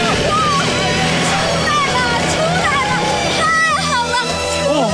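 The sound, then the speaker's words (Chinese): A stuck car's engine revs hard while people push it from behind to free it from a rut in the cold, a loud, continuous drone with wavering pitch and voices talking over it. “好好好，我再去加点油门。 我们都到后面推，再试一次。”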